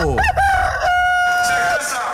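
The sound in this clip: A rooster crows once in the morning, a loud cock-a-doodle-doo with a stuttering opening and a long, steady, high held note that cuts off abruptly. No other sounds stand out.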